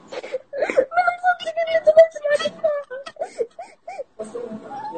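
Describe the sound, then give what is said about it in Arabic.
Someone crying, with whimpering, wavering wails and sobbing bursts that rise and break off repeatedly, fairly loud and without a clear pause. “طب ايش فيك تبكي ليش؟ خلاص الحين المفروض تفرح انك دخلت معي.”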